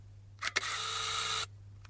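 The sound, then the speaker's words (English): A film camera's shutter fires at 1/500 second under a duvet. A quick double click opens a second of loud, steady mechanical whirring, which stops abruptly before a faint tick at the end. “Yeah, it's one of those cameras. Here we go. Put on a 500th of a second. See what happens.”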